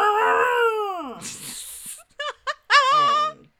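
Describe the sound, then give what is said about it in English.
A human voice imitates a chainsaw. A falling harmonic drone turns into a raspy buzz, followed by a few short choppy bursts and a final wavering, revving tone. “That was my chain saw noise.”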